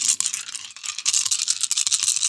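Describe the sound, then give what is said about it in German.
Dice shaken in a hand, making a dense, bright rattling clatter of many rapid clicks that runs on almost without a break, fairly loud and alone. “So, ich würfel hier mal und schüttel in meiner Hand die Würfel.”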